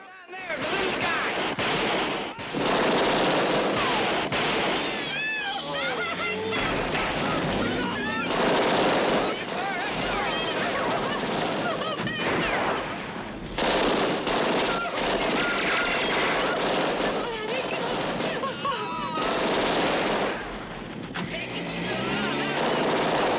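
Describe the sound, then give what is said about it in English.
Gunfire in a police shootout with Bonnie and Clyde, after an armor-plated car explodes and police scramble for cover: many loud, sharp bursts of shots and rapid machine-gun fire, separated by brief pauses. “Police scramble for cover. Moss guns down a cop as Bonnie and Clyde scramble into their car.”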